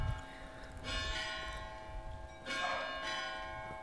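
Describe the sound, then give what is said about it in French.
A church bell rings oddly and irregularly, two separate strikes each leaving a long, shimmering hum that fades slowly, fairly faint overall. “Putain, elle sonne bizarre cette... On dirait qu'elle fait n'importe quoi, cette église.”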